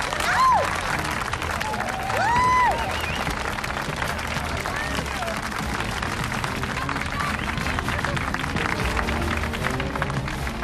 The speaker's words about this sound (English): A big round of applause, please, for Hamilton Lux!